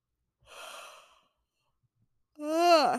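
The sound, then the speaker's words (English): A person yawns: a short, quiet breathy intake, a pause, then a longer voiced exhale that slides down in pitch. “take a shot because I just yawned again.”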